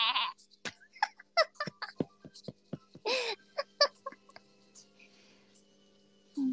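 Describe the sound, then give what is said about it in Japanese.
A voice imitating a goat or sheep bleating, a few nasal bleat-like calls mixed with scattered clicks and small mouth noises, mostly faint. “ヤギか羊もいける気がする。うん。ヤギ、羊？もうどっちもメーだからあれですけども。”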